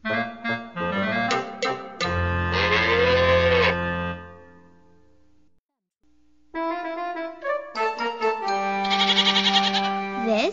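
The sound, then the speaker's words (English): A calf moos twice, each call long, drawn out and rich in harmonics, with a short silent gap between them. “This is a calf.”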